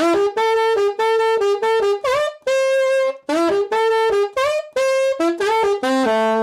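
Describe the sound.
Saxophone plays a rock song's main riff: a loud, punchy phrase of short notes with scooped and bent pitches, played twice through on its own.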